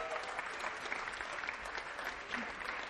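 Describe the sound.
Steady, soft applause from an audience welcoming a guest onto a stage, a continuous patter of many hands clapping without a break.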